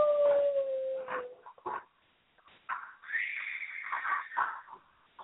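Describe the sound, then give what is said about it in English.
Eerie howling wind sound effect from a vampire horror film: a loud wavering howl with a falling tone, a brief lull, then a sustained higher-pitched moaning howl that rises and swells for several seconds, with no voices. “Here comes the scary wind music, or the wind sound.”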